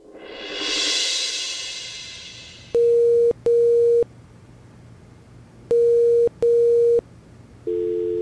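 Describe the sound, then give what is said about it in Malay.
Ringback tone of an unanswered phone call: two loud double-pulse rings separated by a pause, then a different tone starting at the end, after a soft whooshing noise at the start. “satu hari aku call Indra. Tapi tak jawab.”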